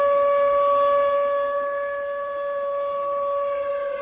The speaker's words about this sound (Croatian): Početak žalosti tačno u 2 sata i 28 minuta poslije podne, kada se po lokalnom vremenu zemlja prvi put zatresla, u Pekingu i drugim gradovima Kine označio je zvuk sirena.